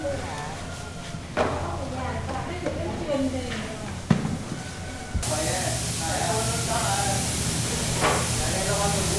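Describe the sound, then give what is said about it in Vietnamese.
Spray paint hisses as artisans coat decorated products evenly, a steady airy spray running beneath a narrator's voice, with a few sharp knocks breaking in. “Những sản phẩm lại tiếp tục được chuyển đến tay các nghệ nhân trang trí thêm đủ kiểu hoa văn, họa tiết, rồi phun sơn thật đều lên sản phẩm.”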